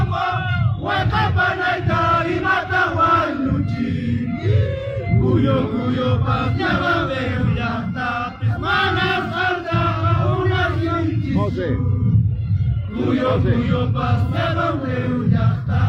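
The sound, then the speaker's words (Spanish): A large crowd of protesters chanting at mass marches in Juliaca and Puno, demanding the president's resignation. Many loud voices rise and fall in repeated rhythmic phrases, with brief pauses between chants. “Las calles de Juliaca y de la ciudad de Puno fueron escenario de multitudinarias marchas. Los familiares de los fallecidos se desplazaron con las fotos de las víctimas, mientras que otros exigían con cantos la renuncia de Dina Boluarte”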